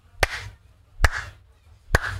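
Three slow, widely spaced hand claps imitate lukewarm applause after a pop star's private performance for footballers. Each clap is sharp and isolated, with a short gap between, and the overall effect is sparse and unenthusiastic.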